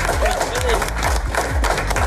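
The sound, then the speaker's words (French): A morning crowd applauding and cheering at a public event, brisk clapping and shouts running beneath loud talk throughout. “Bienvenue à vous les amis, vous pouvez encore vous applaudir.”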